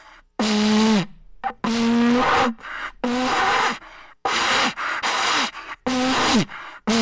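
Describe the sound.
A failed attempt to blow a World Cup vuvuzela, heard as a series of strained, buzzy low blasts, several sagging downward in pitch as they die out, separated by brief gaps.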